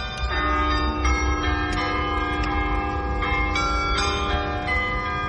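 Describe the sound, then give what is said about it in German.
Carillon bells in the tower of a parish church play a melody, the struck bell notes ringing and overlapping in a measured tune over a steady low rumble. No voices. “live gespielt auf dem Carillon im Kirchturm der Pfarrkirche St. Josef in Bonn-Beuel”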